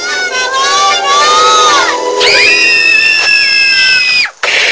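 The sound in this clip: Children shouting and screaming while playing, with several high, excited voices overlapping in loud, continuous whoops and cries that briefly drop out near the end.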